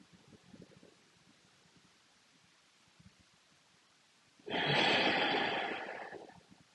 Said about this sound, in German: Ein tiefer Atemzug so, noch ein Moment der Ruhe.